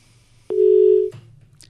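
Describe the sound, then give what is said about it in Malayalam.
A phone-in caller's line drops, followed by a single steady mid-pitched telephone beep lasting just over half a second, then a click and faint low noise. “അയ്യോ, നമ്മുടെ call കട്ടായി പോയി.”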